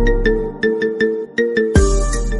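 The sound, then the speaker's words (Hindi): A phone ringtone signals an incoming call with a repeating pattern of short, evenly spaced melodic tones, then shifts into a brighter, louder phrase near the end. “आपका phone आया है।”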